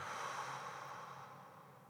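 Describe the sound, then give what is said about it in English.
A deep breath drawn in through the nose and let out through the mouth, heard as one soft, airy, steady rush that fades slightly toward the end, with no talking. “So we're going to take a deep breath in through the nose and out through the mouth.”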